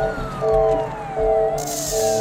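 An arriving ambulance's siren wails over a rumbling vehicle, with a long falling sweep and repeating steady tones.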